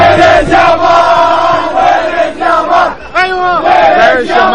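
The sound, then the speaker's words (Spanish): Saudi Arabian football fans chant a taunting 'Where is Yamal' aimed at Lamine Yamal. Massed voices repeat a loud, sing-song phrase with clear rhythmic pulses and rising and falling pitch. “Es la afición de Arabia cantando Where is Jamal, ¿dónde está Lamine Yamal?”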